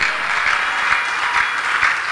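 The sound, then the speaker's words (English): An audience claps in praise to God during an energetic church sermon, producing a steady, continuous patter of many hands that stays even and fairly loud for the whole moment. “Is that not a good reason to clap to God?”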